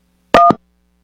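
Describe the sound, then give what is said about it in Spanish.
A phone keypad button, the 1 key, is pressed in answer to an automated call prompt, giving a single short, loud DTMF tone with a slight noisy click, then silence. “Marque 1 para aceptar la llamada. 2 para negar esta llamada.”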